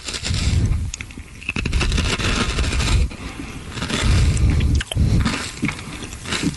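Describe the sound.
Someone eats a crunchy flaming hot snack, with loud, continuous crackling bites and munching that pause briefly a few times.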